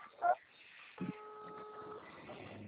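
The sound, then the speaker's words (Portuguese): A video call ringing tone sounds as a single steady, multi-pitched electronic ring lasting about a second. A brief soft blip comes just before it, and faint background noise follows. “tô ligando aí, chamada de vídeo, tá?”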